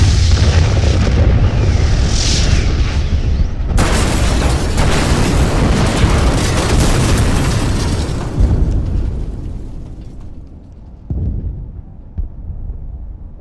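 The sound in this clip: A loud explosion in an audio drama erupts as a broad, roaring blast that rumbles on for several seconds, then slowly dies away, with a smaller thump near the end.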